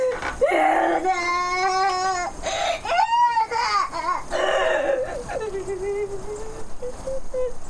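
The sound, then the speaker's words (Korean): A woman crying while lying face down on the floor, with loud, high-pitched wailing sobs that rise and break repeatedly and carry on throughout. “우편 배달부는 마루에 엎드려 울고 있는 목사댁을 본다.”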